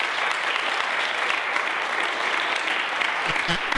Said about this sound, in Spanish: esto merece un aplauso, por favor.